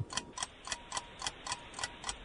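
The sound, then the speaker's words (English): Game show countdown timer ticking during a trivia question, eight faint, crisp ticks at an even, brisk rhythm with no talk over them. “Here's your timer.”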